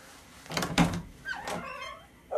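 A door being opened, heard as a few short thuds and knocks spread across a couple of seconds, moderately loud, with no talk over them.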